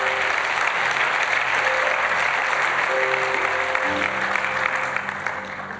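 Sustained applause from a church audience welcoming visiting guests, many hands clapping loudly and steadily before tapering off slightly at the end.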